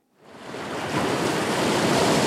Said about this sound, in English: Freddie Hincapié is looking out over the ocean from a waterfront park in Lynn